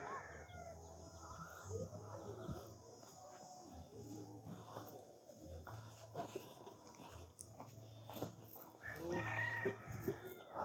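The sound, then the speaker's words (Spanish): A hen clucks with her chicks: faint, repeated low clucks in an uneven rhythm, with a few sharper calls mixed in. “Mira, aquí nos acompaña la gallinita con sus pollos.”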